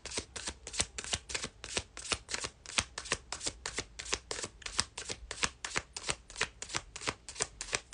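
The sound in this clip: Tarot cards being shuffled give a quick, even run of many papery riffling bursts in a steady rhythm, fairly soft and with no talking.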